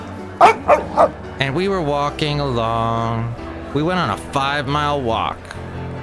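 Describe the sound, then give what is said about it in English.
A person imitates a boxer dog barking with three short, sharp bark-like yelps, followed by ordinary talk. “I was in Pleasanton with my dog, Basil the Boxer, who sounds a little like this.”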